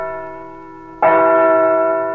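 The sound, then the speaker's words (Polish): Church bells ring in Madrid on the anniversary of a bombing: the fading hum of an earlier stroke, then one loud, clear bell strike whose rich tone rings on and slowly decays. “Po siódmej, dokładnie w pierwszą rocznicę zamachu, w Madrycie zabiły dzwony kościołów, przypominając o tej tragedii.”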